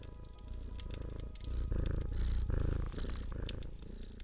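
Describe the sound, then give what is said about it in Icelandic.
Steady purring from a big black cat lying contentedly in a lap by the fire on a cold winter evening: a low, rhythmic throbbing that continues throughout at a fairly even level, with no voices. “Í fangin á henni lá stóri svarti kötturinn þeirra, Tommi gamli, eins og þau kölluðu hann og malaði af ánægju.”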